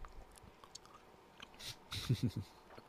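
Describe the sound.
Chewing of a macaroni-shaped gummy candy: faint soft mouth sounds at first, then a few louder, squishy chewing bites clustered near the end, with no talk.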